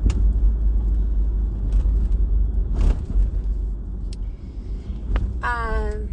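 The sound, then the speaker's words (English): Steady low engine and road rumble from a car being driven to a store, a constant drone with no clear gear changes or revving, holding an even loudness throughout. “But now I am driving to go to the pet store.”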